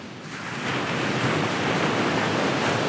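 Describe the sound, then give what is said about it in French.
Ocean waves crashing on the shore of a rough, resounding sea: a loud, continuous roar of surf that swells slightly at the start and then holds steady, with no voices. “Le rivage vibrant sous le coup de vagues répondait à la haute mer retentissante.”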